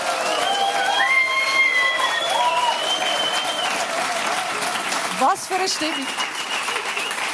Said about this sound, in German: Genau, und da sind wir und mit einem grossen Applaus begrüßen wir